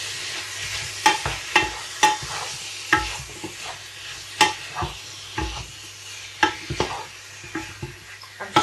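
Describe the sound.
Lamb browning with onions in a pan for a stew sizzles steadily, broken by many sharp scraping strokes of stirring at a fairly regular pace.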